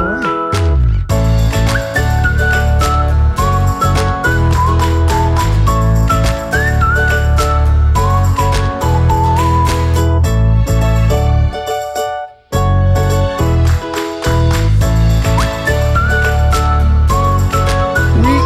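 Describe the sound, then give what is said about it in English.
A whistled melody carries a bouncy tune over full instrumental backing, with bright sliding notes above a steady rhythmic accompaniment. The music drops out briefly partway through before resuming loudly. “I think I'll just step out of the way and cue the whistling music.”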